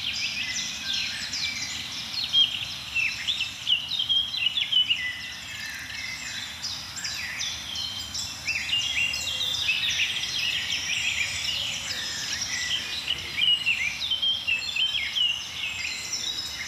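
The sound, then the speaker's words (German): Blackcap warblers sing in a continuous stream of rapid, high warbling phrases, fairly faint and overlapping, with song bursts recurring throughout over a low steady background. “Die ein oder andere Grasmücke ist auch dabei. Mönchsgrasmücken vor allem jetzt.”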